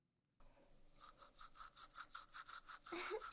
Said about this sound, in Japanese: 右上の奥歯から磨いていきますね。だんだんと前歯に向かって